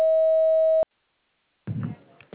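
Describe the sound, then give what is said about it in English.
An answering machine gives a single steady electronic beep, a clear mid-pitched tone lasting just under a second. A short silence follows, then a voice starts talking. “Please record your message after the beep.”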